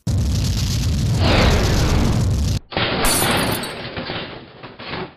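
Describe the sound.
A loud barrel blast explosion in a video game roars as dense, crackling noise for about two and a half seconds and cuts off abruptly. A second, brighter burst of rattling, shattering noise follows and runs to the end.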